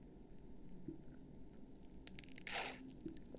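A brief, airy slurp as someone sips a lavender honey latte, a short hissing burst standing out against a faint, steady background hum.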